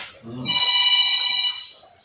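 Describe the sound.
A new phone rings with a bright electronic ringtone of layered high tones, sustained for about a second at a fairly loud level after a brief voice at the start, then fading out.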